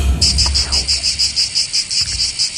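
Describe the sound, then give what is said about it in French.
Cicadas chirp by the seaside in the south of France, a loud, high buzzing pulsed in a fast, very regular rhythm that runs on steadily without a break. “Bah oui, c'est les cigales, bien sûr.”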